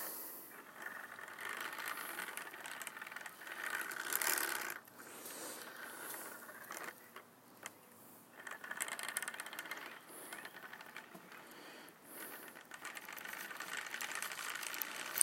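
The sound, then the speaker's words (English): Faint mechanical rattling and whirring of a hand crank wheel turning as it works yarn, making small nips in it. The uneven, ratchet-like texture swells and dips in irregular bursts, with no voices. “The amount of control you have on a hand crank wheel is uh, pretty remarkable.”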